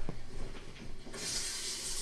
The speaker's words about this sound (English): And now he's taking a shower.